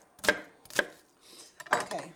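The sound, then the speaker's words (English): A knife coarsely chopping an onion on a board gives a few sharp, separate thuds with uneven gaps between them, with no talk. “And now I'm just going to take an onion, and again, just coarsely chop.”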